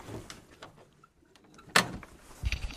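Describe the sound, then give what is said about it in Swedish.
An outdoor privy door is pulled shut, with soft rattles and bumps before a single sharp bang, then quieter knocking. “Och stänga om utedasset kanske. Ja, nu drar jag igen den här.”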